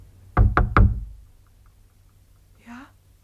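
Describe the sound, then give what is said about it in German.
A hand raps three sharp, quick knocks on window shutters at night, and a brief, faint voice follows after a pause. “Aber diesmal ist es eine Hand, die pocht. Kein Gewehrkolben.”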